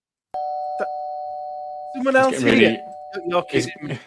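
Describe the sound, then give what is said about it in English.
A doorbell at a Christmas party rings with a single clear chime whose tone hangs on and slowly fades, while voices start talking over its tail. “That was a doorbell.”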